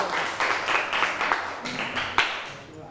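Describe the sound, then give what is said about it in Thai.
Applause from an audience in a class, a fairly even run of rhythmic clapping at moderate loudness. “ปรบมือหน่อยค่ะ”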